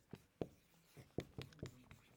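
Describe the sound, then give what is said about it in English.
Numbers being written by hand: several short, faint scratching pen strokes spaced unevenly, each a brief soft scrape. “I should be writing numbers here.”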